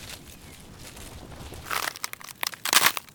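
A cane snapping in two, heard as crunching and cracking. The start is quiet, then a few sharp crackling bursts follow, with the loudest near the end.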